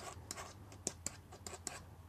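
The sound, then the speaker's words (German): Pen scratching on paper as a prediction is written, a faint, dry rasp of short strokes with a few sharper ticks; no one talks. “Ich schreibe meine Vorhersage.”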